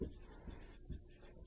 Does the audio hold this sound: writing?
yes